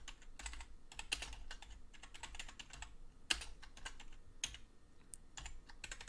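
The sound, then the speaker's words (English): Typing on a computer keyboard: a steady, faint patter of many light key clicks, with a few sharper taps standing out. “Here, I'll, I'll type it.”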